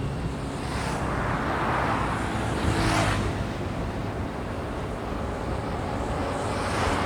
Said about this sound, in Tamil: இப்போது எதிரில் ஒரு வேன் போச்சுங்க இப்போ வாக்கிங் போயிட்டுருக்கேன் எதிரில் ஒரு வேன் போகுது